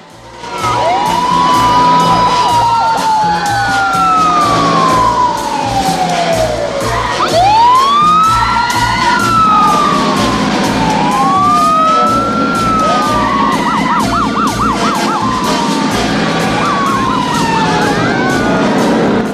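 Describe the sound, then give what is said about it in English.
Several police car sirens wail loudly and without pause as a posse of police cars and motorbikes chases a bus through Phoenix. Their overlapping tones sweep up and down over a low engine rumble throughout. “A posse of police cars and motorbikes set out to intercept the bus.”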